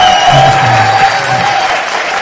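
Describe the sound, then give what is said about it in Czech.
An audience applauds in a church service with loud, dense clapping that starts at full strength and then gradually softens, with a few faint voices beneath it. “Let us give a hand for our Father.”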